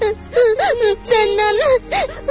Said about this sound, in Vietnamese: Hình như đâu có nói gì đâu mà sao em khóc?